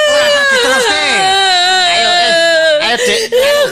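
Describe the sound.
A woman crying: a loud, continuous, high-pitched wail with a quivering, wavering pitch that breaks briefly near the end before resuming.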